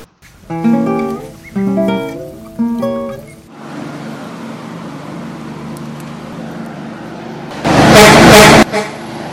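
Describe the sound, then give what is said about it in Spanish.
A car nearly runs someone over in the middle of a busy market square: three loud horn blasts, then a steady rumble of traffic and a brief, harsh, loud burst of noise near the end. “¡Cuidado! Casi que lo atropella el carro.”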